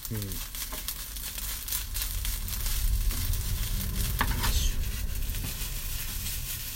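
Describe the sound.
Fried rice sizzles in a pan as it is stir-fried with a wooden spatula, a steady crackling hiss broken by irregular scrapes and a few sharper clatters throughout.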